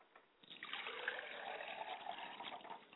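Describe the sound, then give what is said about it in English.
Liquid poured out as a libation, a soft, steady trickle that starts after a brief quiet moment and runs on evenly at a faint level. “I pour libations to the east,”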